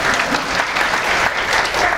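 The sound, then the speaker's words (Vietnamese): An audience at a Buddhist talk claps steadily, many hands making a dense, even patter of applause that holds at the same loudness throughout. “vỗ tay đi quý vị”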